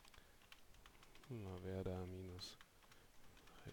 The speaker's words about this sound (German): Ich gehe jetzt mit der Pfeil nach links Taste da in das Feld hinein, mache ein Gleichheitszeichen dahinter und schreibe meinen Pfad.